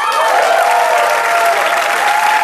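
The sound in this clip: Loud, continuous audience applause greets a guest on a comedy talk show, with many hands clapping in a dense, steady roar.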